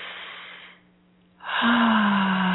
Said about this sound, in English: Nice deep breath again.